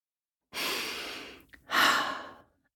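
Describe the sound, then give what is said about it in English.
A slow, deep breath is drawn in and then let out, two long, airy rushes of sound separated by a brief pause, with no talking. “Let's take a breath in and out.”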